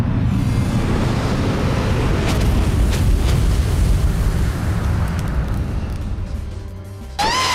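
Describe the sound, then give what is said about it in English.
Flame Apocalypse fire attack in a video game boss fight: a loud, sustained roaring rumble with a heavy low end, like an eruption, easing slightly past midway before a brief sweeping swoosh closes it out. “Foe Hyper Hatherillion used Flame Apocalypse.”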